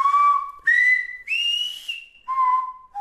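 Whistled vowels of silbo, the whistled language, practised in a lesson in San Sebastian: a series of clear sustained whistles at changing pitches, first low, then higher, then highest, then low again, each held for about half a second or more.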